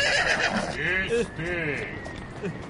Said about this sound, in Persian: یا خدا این اسب سوار کیه داره نزدیک میشه